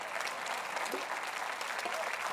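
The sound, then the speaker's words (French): Church audience applauding when asked to say amen and clap during a sermon, a dense, steady wash of clapping that fills the whole stretch without letup. “Pouvez-vous dire amen et applaudir à peu près 7-8 secondes que je prenne une gorgée?”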